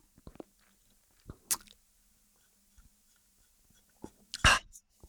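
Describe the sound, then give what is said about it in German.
A person taking a sip of a drink: faint, scattered mouth clicks, then a short, louder slurping burst near the end, heard alone in quiet surroundings. “Ja, ich trink mal einen Schluck dann.”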